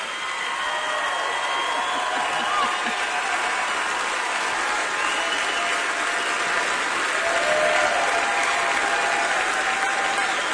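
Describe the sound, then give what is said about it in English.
Standing ovation applause from an audience at the close of a live show in Nashville: a dense, steady roar of clapping that holds at an even, loud level for the whole stretch with no clear breaks. “That is the sound of a standing ovation as we close out the show.”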